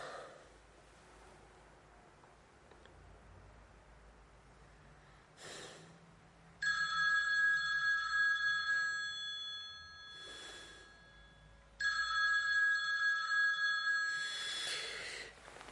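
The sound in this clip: A mobile phone lying on the floor beside a bed rings in two steady bursts of bright electronic tones, separated by a pause, with short breathy sounds in between.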